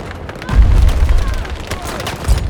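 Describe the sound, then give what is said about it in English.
Gunfire from an enemy plane in a video game: low, booming bursts of rapid shots, rumbling on and off in short clusters. “Oh, he's shooting at me. Who is shooting at me? the fucking plane is shooting at me. the plane.”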